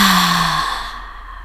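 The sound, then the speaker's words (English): A deep breath exhaled in a single long, airy sigh during a guided breathing and grounding exercise. It starts full and steadily fades, with no talking. “inhale, hold, and exhale.”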